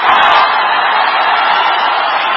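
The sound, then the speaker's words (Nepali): A crowd hoots and shouts at a party convention as politicians Rabi and Balen arrive after a wait of about an hour and a half, a dense, steady roar of many voices that holds at a loud level throughout. “निर्धारित समयभन्दा झण्डै 1.5 घण्टाको पर्खाईपछि रवि र बालेन महाधिवेशन स्थलमा पुग्दा सुनिएको hooting हो यो।”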